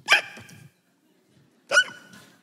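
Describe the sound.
A voice imitates the chronic hiccups of an old cartoon character, an elderly man. There are two sharp, yelping bursts about one and a half seconds apart, and each one tails off quickly.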